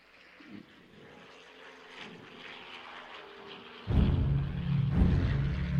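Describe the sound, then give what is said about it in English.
Engine roar from jets and a World War II and Korea-era piston-powered propeller aircraft flying by. A steady droning rumble grows sharply louder about two-thirds of the way through and stays loud to the end, with no talking. “So the sound of jets off to your right, the sound of a piston-powered, propeller-driven aircraft of World War II in Korea on your left.”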